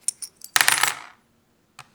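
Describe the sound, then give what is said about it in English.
Brass coins tossed for an I Ching reading: a few light metallic ticks, then a bright jingling clatter as the coins land and settle together, and after a short pause one more crisp clink. “This begins by tossing brass coins six times.”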